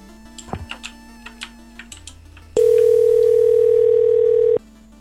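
Telephone tones: a few faint, short beeps, then a loud, steady, pure tone held for about two seconds before it cuts off abruptly.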